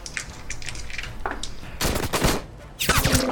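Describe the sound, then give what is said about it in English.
Gunfire as a character shoots while jumping: light scattered clicks lead into two loud stretches of rapid, crackling shots separated by a short lull. “As she's jumping, she shoots.”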